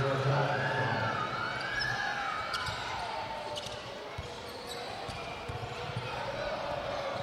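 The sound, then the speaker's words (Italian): Basketball dribbling during a professional game involving Givova Scafati: a few sharp bounces under steady crowd noise and a commentator's voice. “Anna, palleggio insistito”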